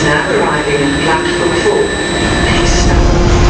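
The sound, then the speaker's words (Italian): A red-livery high-speed train, service 9641, rushes through Rome's Termini station with a loud, continuous roar and rumble, thin steady whining tones riding above the wide noise throughout. “ora il treno alta velocità traccia rossa 9641”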